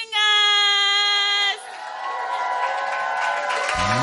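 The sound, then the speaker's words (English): An audience cheers and applauds to welcome a singing group to the stage. A loud, sustained high vocal cry rings out first, then gives way to a steady wash of crowd noise and clapping. “Okay, so put your hands together and let's welcome the Greater Love”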